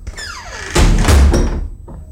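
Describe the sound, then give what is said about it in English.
Door being shut: one heavy, loud thud with a rattling clatter that rings for about half a second and fades, followed by a faint short tap. “Put the wood in the hole. What do you mean, Dad? Shut the door. From the outside, preferably.”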